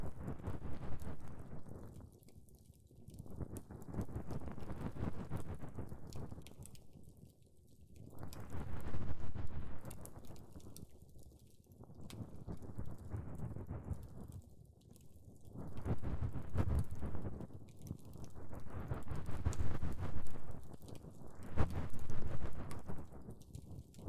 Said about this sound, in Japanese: 細かい汚れは奥に溜まっていることが多いんです。ですので、こうして梵天を奥まで入れて汚れを取っていきます。